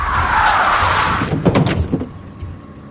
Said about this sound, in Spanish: El coche se detiene.